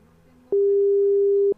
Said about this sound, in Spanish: Ya, ahí estamos llamando. Ahí estamos llamando, ahí estamos llamando.